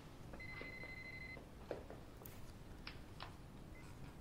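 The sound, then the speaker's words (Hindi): A telephone rings with a faint electronic warbling burst of about a second, followed by a few quieter blips over a soft hiss. “Phone है। बैठो बैठो बैठो, मैं जाता हूँ, बैठो।”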